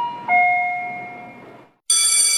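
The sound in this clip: A bell ringing in an advertisement for a school-supplies sale. A sustained two-tone ding-dong chime slowly fades over about a second and a half, then after a brief silence a brighter, shimmering bell strike rings out loudly.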